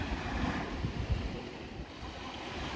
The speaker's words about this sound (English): I'm standing here at my local beach,